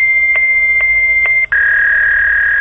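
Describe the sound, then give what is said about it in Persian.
Fax machine connection tones after dialing a fax number: a steady high electronic tone broken by three brief bursts, then a short gap and a slightly lower steady tone that continues to the end. “شماره تلفن فاکس را می گرفتید و بعد از یک صدای آشنا”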